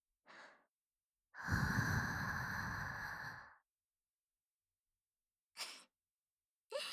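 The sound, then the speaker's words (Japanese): Someone blows gently into an ear. Soft, breathy airy puffs come close up: one long, sustained blow lasting about two seconds, plus a few brief puffs around it, with silence in between. “もちろん、お耳ふうふうもね。”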